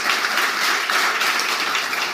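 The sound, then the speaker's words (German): Audience applause at a live recruiting-industry event, a continuous, lively patter of many hands clapping at an even level throughout. “Auch da bitte einen herzlichen Applaus.”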